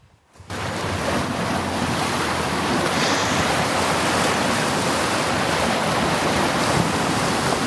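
Sea waves at a beach come in abruptly after a brief silence, then hold as a steady, loud rush of surf with wind noise. No one speaks over it.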